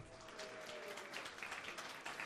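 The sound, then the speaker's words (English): Applause greets a speaker's announcement that she bought her first house: a faint, steady wash of clapping that holds evenly for a couple of seconds with no voices over it. “yeah, that applause was a long time coming, right?”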